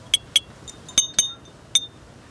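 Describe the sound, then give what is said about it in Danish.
Light, bright clinks ring out as a teaspoon taps glass bottles, about half a dozen strikes in an uneven rhythm, each a short high ping with a brief ringing tail over quiet background. “jeg har fundet en form for teske, som jeg ligesom kan slå på de her flasker med. I kan lige få et lille smagsprøve.”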